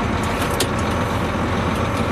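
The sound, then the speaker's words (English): A large Class 1 truck drives along with a steady, low engine rumble and road noise, holding an even level throughout with no voices. “Okay, let's go for a little drive. Because you have to realize that when you're in a big vehicle like this, you can't be in a hurry.”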